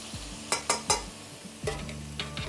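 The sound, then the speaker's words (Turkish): Beef ribs sizzle in a frying pan while a utensil stirs and scrapes them. A few sharp scraping clatters come in two quick clusters over a continuous soft hiss and ringing pan tones. “Şöyle kaburgamızı aldık tavaya.”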